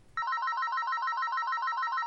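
A mobile phone ringtone: a loud, continuous electronic trill that warbles rapidly and evenly between two high pitches, starting after a brief burst of low noise.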